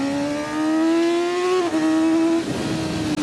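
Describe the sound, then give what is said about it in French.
A 600 cc sport motorcycle engine accelerates with a loud, steady, high-pitched whine that climbs slowly, dips once midway, then holds its pitch. “Oh là là, l'agilité de la moto, ça c'est génial. Et puis, petit 600 là, il a la patate.”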